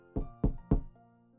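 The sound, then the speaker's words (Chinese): Three firm knocks on the door of a restaurant's private room, evenly spaced and each with a dull, heavy thud, over a faint sustained tone that lingers after the last knock. “秦冉停在12号包厢门边，抬手敲门”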